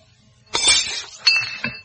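A glass of water clinks in a shaky, nervous hand, giving a few bright, ringing glassy chinks in quick succession over a quiet background.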